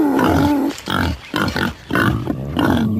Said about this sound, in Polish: Myślę, że nawet można je usłyszeć, bo takie lochy są przecież bardzo, bardzo głośne